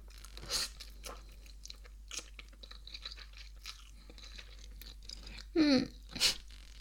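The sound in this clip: Someone chews instant noodles late at night: faint, scattered crunches and bites with quiet gaps between them, and a couple of louder, sharper bursts near the end.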